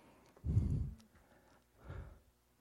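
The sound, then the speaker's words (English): Deep breathing during a guided group breathing exercise: two soft, airy breaths, the first longer and stronger, the second shorter and fainter, with no talk. “That was a great breath.”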